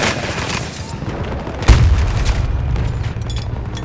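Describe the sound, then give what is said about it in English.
A grenade detonates in a shooter video game, one sudden heavy boom followed by a lingering low rumble, with a steady bed of battle noise before and after. “Oh, grenade, Sorry. run!”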